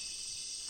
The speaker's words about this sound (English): And I begin to hear the insect patterns and how they are rhythmic. And each rhythm is a different insect, especially as the light weakens and we make the transition from day into evening and night.